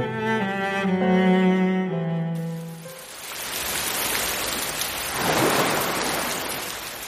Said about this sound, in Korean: 이번에는 소나기가 아니었다. 빗줄기가 짧은 시간 동안 눈에 띄게 굵어지고 있었다.